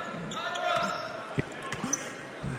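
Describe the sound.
Basketball dribbled on a court during a game, a few sharp, low bounces standing out over steady background voices and crowd noise.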